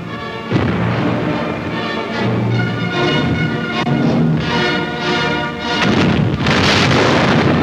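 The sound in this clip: Soviet barrage artillery fire at Stalingrad, heard as a dense, continuous roar of loud, overlapping booms and rumbling blasts that barely lets up, with one brief dip before the barrage swells again.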